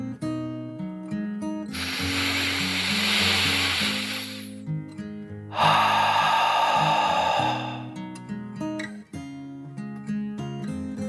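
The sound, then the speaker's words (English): A deep breath is drawn in and then let out, two long airy whooshes heard one after the other over steady soft background music. “took a deep dragon breath, in and out.”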